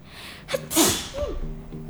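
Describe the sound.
One sharp sneeze bursts out as a loud, hissy blast that quickly trails off, followed by faint breathy sounds.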